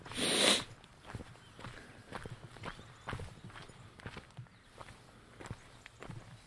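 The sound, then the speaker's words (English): Footsteps walking down an outdoor track, faint and regular, a steady series of soft crunching steps with a brief louder rustle at the start. “But as I turn my back to them and continue walking down this track”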